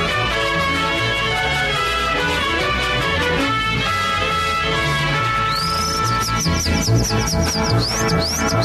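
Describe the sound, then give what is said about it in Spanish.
Calandria lark singing: a rapid run of high, bright chirps and trills enters partway through, layered over loud, continuous music with sustained instrumental tones. “Mira nomás, qué bonito canta la calandria, hombre.”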